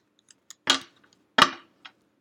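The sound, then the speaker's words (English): Cards are pulled from their case and dusted off. Two short brushing swipes stand out, surrounded by a few faint clicks and taps, with near silence between them. “Sorry, I'm dusting my cards off out of my case because I was gone for a little bit.”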